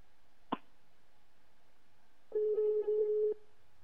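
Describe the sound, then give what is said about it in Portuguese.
Telephone ringback as a call is placed: a single click, then after a pause one steady, low-pitched ring of about a second, with no talk. “Vamos ligar aqui para uma pessoa também.”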